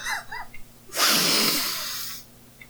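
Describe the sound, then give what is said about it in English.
A deep breath drawn as one long, loud, airy rush lasting over a second. It follows a brief murmur of voice and then fades into quiet. “Okay. Okay. Deep breath.”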